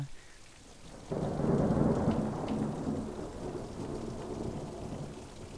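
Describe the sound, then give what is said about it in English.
Thunder rolls in with rain, a deep rumble that swells about a second in and lingers low and steady over a soft hiss of falling rain. “I love it when the thunder comes in.”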